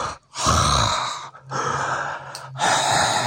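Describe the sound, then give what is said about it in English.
A voice imitates deep, scary breathing with three long, rasping, noisy breaths separated by brief pauses. The breaths are loud, and no words are spoken. “but dead deep, like kind of breathing, really scary”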